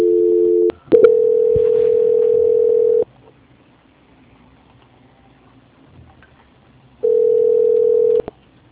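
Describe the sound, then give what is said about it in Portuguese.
Telephone signaling tones play while a call is being transferred: a short dual tone, then a longer steady single tone, a quiet gap, and one more steady tone near the end, with no talk. “Transferindo ligação.”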